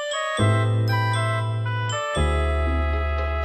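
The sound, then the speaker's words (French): A short musical jingle opening a show segment, made of bright sustained synth chords over a deep bass tone, shifting to a new chord partway through. “on va passer à la rubrique numéro 4, et Raptor, c'est parti, jingle.”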